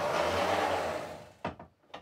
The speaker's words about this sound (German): Und dann schieben wir die Platte in den Scanner.